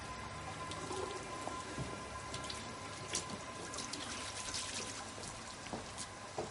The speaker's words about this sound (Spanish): En los servicios sale de un retrete y se lava las manos en el lavabo.